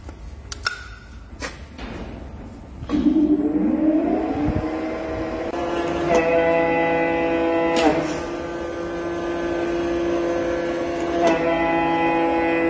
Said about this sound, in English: this is a German-built Klopp 1000H. We're going to plug it in and see what 4 years of storage has done to it.